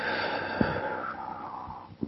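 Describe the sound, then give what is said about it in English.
A slow deep breath drawn in and released during a gentle guided relaxation exercise: soft, airy, continuous breath noise with a couple of brief louder puffs, and no talking. “So take a deep breath in. And out.”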